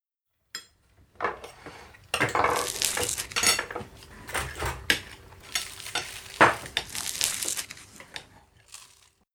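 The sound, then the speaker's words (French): Dishes and cutlery clatter and scrape as a family eats breakfast at seven in the morning. Irregular clinks and stirring come in busy bursts, with no talk. “Il est 7h. La famille Legrand prend son petit déjeuner.”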